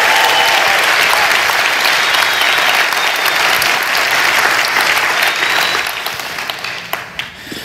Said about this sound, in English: Give it up one more time for David Tall.